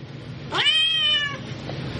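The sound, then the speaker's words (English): A cat in a video game meows once, a clear, drawn-out mid-pitched meow that lasts under a second, heard over a steady background hiss with no talking. “What the hell is a cat doing in here?”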